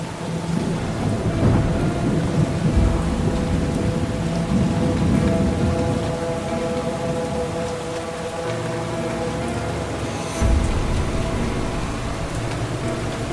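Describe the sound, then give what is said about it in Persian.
Heavy rain pours steadily, a dense continuous hiss of drops with low rumbling underneath and no talk. “صورت محبوبه از بارون خیسه.”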